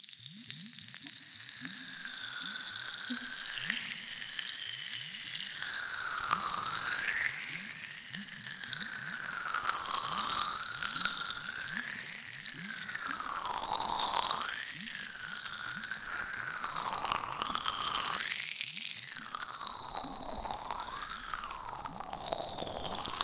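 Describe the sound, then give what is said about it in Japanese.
Ear massage with a special gel in an ASMR session: a continuous close, crisp crackling and squishing texture with slow, sweeping swishes rising and falling over it, steady and fairly quiet, with no talking. “まずはこの特製のジェルを使って、ボクちゃんのお耳をマッサージしていくわね。”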